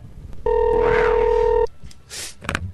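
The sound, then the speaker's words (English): A telephone tone sounds while someone calls a hotel room back: one steady, loud two-note beep lasting about a second, then a few short, noisy clicks and rustles. “I'm calling his room back.”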